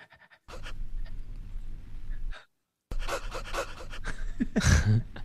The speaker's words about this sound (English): I like how they do a little dog panting in there.